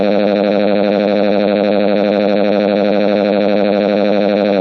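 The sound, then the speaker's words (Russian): Car alarms go off in the street as a loud, continuous warbling electronic tone that holds steady without pause for the whole stretch. “От моего крика окна треснули, а на улице у автомобилей сработала сигнализация.”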